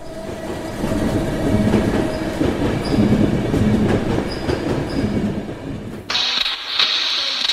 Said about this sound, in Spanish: Pues bueno, vamos a subirnos entonces en el tren a ver a dónde nos lleva.